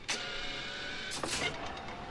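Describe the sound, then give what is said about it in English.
An airplane's overhead luggage compartment closes: a sharp mechanical clunk at the start, then a short cluster of clattering knocks about a second later, over a steady low hum. “Those are all normal noises. Luggage compartment closing.”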